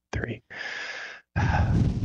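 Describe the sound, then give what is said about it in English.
A group takes a deep breath together on a count: a short breathy puff, then a long, airy intake and a full, rushing release of breath. The breath sounds stand alone, with no voices. “On three, let's take a deep breath, focus real quick, and relate with Blake and Becca”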